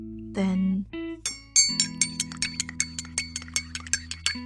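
Spoon stirring hot water and milk in a coffee mug: a rapid, even series of many light, bright clinks against the mug's sides, quiet and steady.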